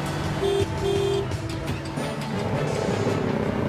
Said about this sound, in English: pulls into the center lane and accelerates hard to try to get in front of the bus